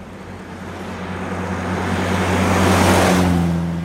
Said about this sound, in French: Voilà, on retourne sur le parking.